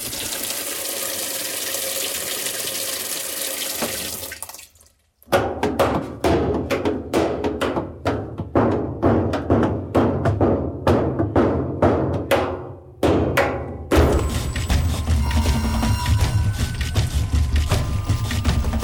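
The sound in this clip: Washing machine running, its sheet-metal body giving off many timbres over a motor hum: a steady churning wash, then a long run of rhythmic clanking thumps, a brief pause, and a denser, louder churn.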